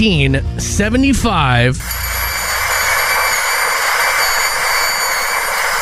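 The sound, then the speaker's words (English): After a short burst of talk, a dental drill gives off a steady, high-pitched whine over a constant hiss. The whir holds evenly without rising or falling. “Is that a plane? No, the dental drill was in. Oh, yeah. Oh. The dental drill was invented. I don't know what they were using before that. Oh, God, that sound.”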